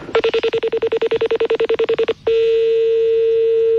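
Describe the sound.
Telephone number dialed with DTMF tones to call a colleague: a long run of quick, evenly spaced beeps, then a short pause and a steady continuous tone that holds to the end.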